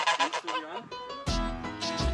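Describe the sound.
Geese honking and chattering, a gander with three females, in quick strings of loud nasal honks that overlap, growing denser and louder in the second half.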